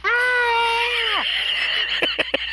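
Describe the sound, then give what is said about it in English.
A person lets out a loud, sustained high-pitched shriek during a dice game, holding steady for about a second before the pitch drops away, followed by a few short, sharp breathy bursts. “I'll start shrieking now, shall I?”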